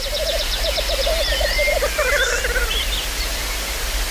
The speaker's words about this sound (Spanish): Y los machos, pues como los urogallos, se reúnen en el lek. En grupos donde cada uno se exhibe para que las hembras vengan y elijan al mejor. Y eso es lo que estáis oyendo.